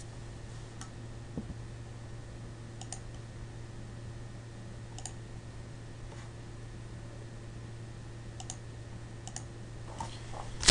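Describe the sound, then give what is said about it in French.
Typing a single word on a computer keyboard: sparse, quiet key clicks at uneven intervals over a steady low hum, with one louder click at the very end. “Je vous écris Carchemish. Voilà.”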